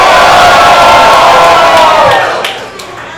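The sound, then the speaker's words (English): Crowd cheering and roaring at a live wrestling show, a loud, dense, continuous wall of shouts and whoops that holds steady before fading away over the final second. “And this crowd is out of hand tonight. I can't even hear myself think.”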